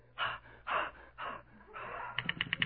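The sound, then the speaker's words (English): Four deep breaths drawn before singing, each a breathy gasp with brief pauses between, then a quick run of short choppy bursts at the end. “Before you start to sing, you just take four deep breaths.”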